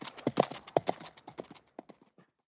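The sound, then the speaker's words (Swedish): A horse gallops off, hooves clip-clopping in a fast, uneven beat of many strikes. The hoofbeats are loud at first, then grow fainter and sparser toward the end, with no voices. “Vänta på mig, hojtar hästen Sammy och sätter av i galopp efter Reggie.”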